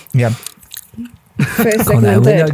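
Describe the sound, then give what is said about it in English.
Faint bites and crunching chews of a Cornetto ice cream cone come through a short gap between stretches of people talking. “I'm going to enjoy my cornetto”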